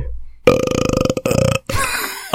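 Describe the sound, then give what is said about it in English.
A loud, long, croaky belch rumbles on for over a second, pulsing rapidly, breaks off briefly and then trails into a rougher, fading tail. “Very nice. A good belch there, man.”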